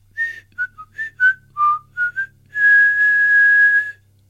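Human whistling: eight short, bright whistled notes hop between pitches, then one long, steady high tone is held for well over a second before it stops.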